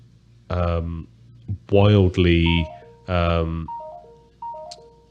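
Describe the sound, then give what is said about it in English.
Mobile phone notification chimes go off during a conversation: short stepped tones that drop in pitch, coming in a couple of quick sequences after bursts of talk. “wildly active phone, apparently, that's just bingle binging at me. Yes, people should put their phones on mute when recording a podcast.”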